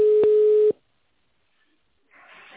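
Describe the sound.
A single telephone ringback tone plays as a call connects: one steady, mid-pitched electronic tone lasting well under a second, then silence, then a faint hiss of the line.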